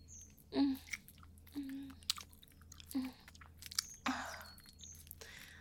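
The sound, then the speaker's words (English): Chewing on a mouthful of breakfast, with a few crunchy bites standing out as louder bursts among softer, wet mastication sounds, all close and fairly quiet, with no talking. “just getting my breakfast in before I serve you yours.”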